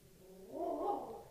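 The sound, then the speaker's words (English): A dog's drawn-out whine or howl, a single tonal cry lasting about a second that swells and fades, fairly faint and heard alone. “That's the dog right there.”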